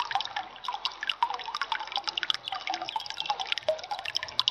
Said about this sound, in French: Toujours l'eau qui coule.